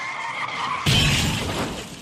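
Car tyres skidding under hard braking: a faint engine whine gives way to a sudden loud, rough hiss of sliding rubber that holds and then slowly eases off.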